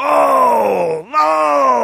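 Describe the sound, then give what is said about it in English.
Stock exchange traders groan on the trading floor in a long, loud, drawn-out groan that holds steady, dips briefly and slides up in pitch midway, then continues to the end. “It isn't in the film, but in the audio from the television broadcast, you can hear behind Scott Wapner, who's broadcasting to the floor, behind the CNBC guy, you can hear traders groaning,”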